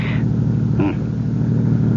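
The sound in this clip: Car engine rumble as a car drives slowly through a small town at night, a steady, even low drone that holds unchanged throughout, with no clear voices over it.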